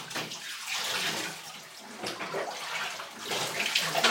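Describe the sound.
Running water rinsing a dog in a bathtub: a steady, splashy rush of flowing water that swells and dips in loudness throughout, with no voices over it.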